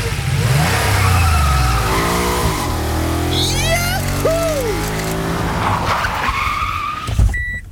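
A car accelerates past a speed camera on a 50 km/h town street in Schleswig. The loud engine roars with sweeping, rising and falling tones and a squeal-like whine, then tapers off.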